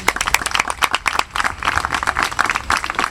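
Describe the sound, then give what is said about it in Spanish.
Applause from an audience at the close of a political talk: dense, steady clapping that keeps a constant level throughout, with no voices over it. “Acorto un poco el aplauso, que debería ser más largo”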